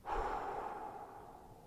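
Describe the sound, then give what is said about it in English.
A deep breath drawn through the mouth during a guided relaxation exercise: one long, airy rush of breath that holds steady for under two seconds and eases off slightly at the end, with no talking. “Big inhale. Exhale through your mouth.”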